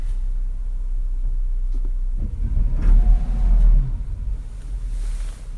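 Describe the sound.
A van engine strains while stuck in sleet, a low rumbling drone that swells louder through the middle as the throttle is worked, then eases back toward a steady idle.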